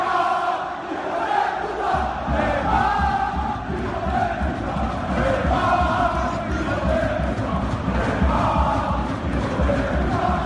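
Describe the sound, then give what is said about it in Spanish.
PSG supporters in the stands at the Parc des Princes chant in unison, a massive, sustained chorus of voices that holds steady and loud throughout. “Escuchen los cánticos de la grada del Parque de los Príncipes.”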